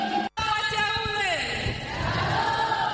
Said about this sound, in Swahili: Makofi na vigelegele kwa Mungu wetu.